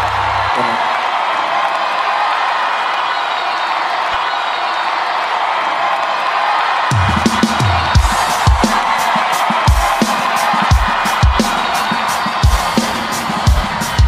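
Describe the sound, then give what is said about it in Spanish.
A church audience cheers and applauds with a broad, loud crowd roar and scattered whoops. About halfway through, a steady rhythmic thumping beat joins in and continues to the end. “El aplauso dáselo una vez más a Jesús, el Rey de Gloria.”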